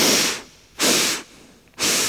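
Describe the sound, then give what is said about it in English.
Deep breaths in and out, guided as part of a relaxation exercise: three loud, airy, evenly spaced whooshes of breath with short quiet gaps between them. “Deep breath in and out. And then three breaths in.”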